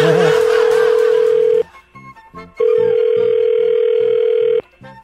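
A steady telephone tone is heard while someone is being called: two long, loud, even tones separated by a short quiet gap, with faint sounds in the pauses.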